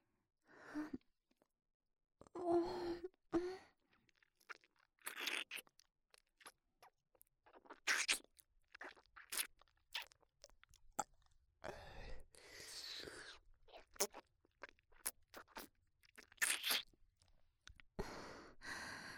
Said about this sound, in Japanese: こういうゆっくりお互いの口を味わうチューもいいでしょう。